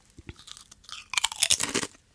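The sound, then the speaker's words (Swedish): Crunchy potato chips being eaten: a few sharp bites, then a dense, loud run of crisp crunching and chewing that fades out at the end. “Chips, för du håller chips i handen. Alltså jag älskar det. Hörde du när du öppnar det? Och bara, lyssna nu på det här. Det här är matradio. Lyssna.”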